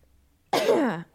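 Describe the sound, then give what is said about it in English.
A single cough, or a harsh throat-clearing, bursts out abruptly and lasts about half a second. It is fairly loud and rough, and no one talks. “Coughing.”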